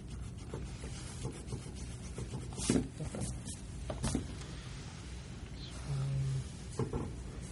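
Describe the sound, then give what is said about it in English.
Pen scratching on paper as a conclusion is written at the top of a page, faint and steady, with a few light taps and rubs. “Go ahead, write it down. A equals C. And write over your conclusion. Well, I'll write it at the top.”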